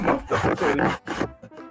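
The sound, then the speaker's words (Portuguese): A laptop screen hinge creaks as the screen opens, giving a few short rasping creaks separated by brief gaps. “Ah não, foi baixo na tela aqui. É porque minha tela tá abrindo. Eu não falei pra você que a tela do meu computador tava se abrindo?”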